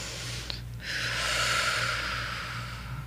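A deep breath is drawn in and let out as one long, steady, airy hiss that swells and fades over a couple of seconds, fairly soft, with no talking over it.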